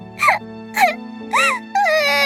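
A young girl cries in four loud wailing sobs, the first three short and broken by pauses, the last drawn out and sustained.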